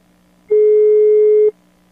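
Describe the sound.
A telephone ringback tone on an outgoing call: one steady, mid-pitched tone lasting about a second, with quiet gaps before and after and a faint low hum underneath.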